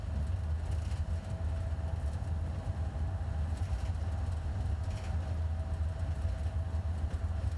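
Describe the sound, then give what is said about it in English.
A bulldozer drives and moves dirt at a construction site where a fishing lake is being dug, giving a steady, heavy low engine rumble that holds constant throughout with no voices. “Oh, that bulldozer is driving.”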